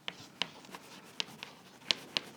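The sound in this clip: A pen writing on paper, heard as faint light scratching with a handful of small, sharp ticks at irregular intervals.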